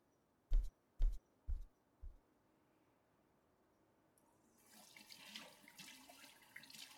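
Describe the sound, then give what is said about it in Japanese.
Water runs at a sink while someone washes their face. Four soft low thuds come first, then a quiet, steady stream of water begins and continues. “はいはい、顔洗って着替えますよ。”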